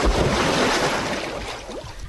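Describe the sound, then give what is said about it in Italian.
A dive splash into water: a loud, sustained rush of churning, splashing water noise that slowly eases over about two seconds. “Il quarto consiglio sicuramente l'avete seguito se siete in nostra compagnia, e allora adesso ci facciamo un bel tuffo.”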